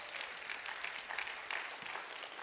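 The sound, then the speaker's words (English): Church audience applause during a Sunday sermon, a faint but steady patter of many hands clapping that continues evenly throughout. “give the Lord a big round of applause today”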